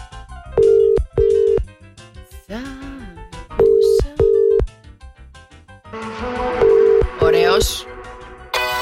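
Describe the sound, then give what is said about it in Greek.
Ringing tone of an outgoing morning wake-up phone call that goes unanswered, sounding as three pairs of short, steady tones with gaps between them. People talk and other sounds fill the gaps. “Πάμε να κάνουμε επόμενο wake-up call, να πάρουμε τηλέφωνο το Σπύρο. Πάμε να καλέσουμε το Σπύρο από την Ερασμία. Για να δούμε. Θα το σηκώσει.”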